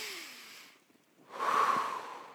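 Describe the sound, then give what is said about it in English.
A roomful of people breathing in and out together at an evening gathering: a broad, airy rush of many breaths, a short quiet gap, then a second, fuller whoosh of shared breath, with no talk. “everyone in the room, let's just breathe in and then breathe out real quick”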